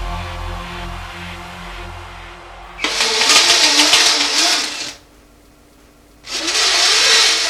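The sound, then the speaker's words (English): A car makes a low rumble, then two loud, rough roaring bursts separated by a quieter pause. “Yes, it is a car, but I want the make and the model of the car.”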